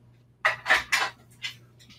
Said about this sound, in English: I'm just going to slice up a cucumber first.